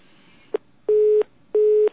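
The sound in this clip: Telephone line tones after a dropped call: a short click, then two steady, mid-pitched beeps of equal length, evenly spaced and loud over faint hiss.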